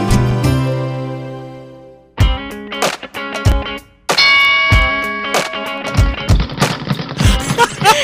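A bell rung repeatedly, beginning with one long sustained ringing tone and followed by many irregular bright metallic strikes of varying loudness, each with lingering overtones.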